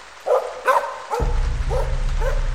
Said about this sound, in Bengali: হঠাৎ আমার মনে হলো আবার সেই কুকুরের ডাকটা শোনা যাচ্ছে,